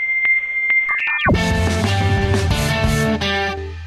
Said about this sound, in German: Jeder User kann dann passend zu seiner ausgewählten Musikrichtung einen Jingle daraus basteln. Das kann dann zum Beispiel rockig klingen